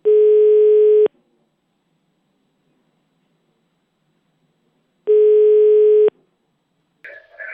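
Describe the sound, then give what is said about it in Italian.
Tone of an outgoing telephone call: two loud, steady, low beeps, each about one second long and about four seconds apart, with silence between them. “proviamo a fargli una telefonata su”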